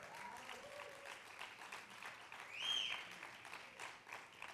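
A church audience applauds: faint, steady clapping that swells slightly midway, then continues evenly.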